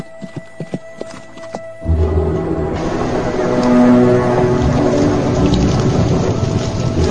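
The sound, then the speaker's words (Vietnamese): A horse galloping hard in pursuit: a dense, rumbling drum of hooves that sets in abruptly after a few sparse knocks and then continues loud and steady, blended with a heavy rushing wash. “Thủy Đại dục ngựa ra sức đuổi.”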